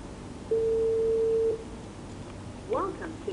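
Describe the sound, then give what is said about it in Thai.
Telephone ringback tone on an unanswered call, a single steady mid-pitched tone lasting about a second, followed by a short burst of voice. “คุณตายไม่รับ เสียงโทรศัพท์มันดังไปเปล่าหรืออ”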